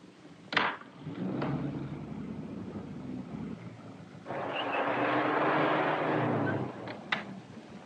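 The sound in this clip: A car driving in a chase: a steady rushing roar that swells louder through the second half, with a sharp knock near the start and another near the end.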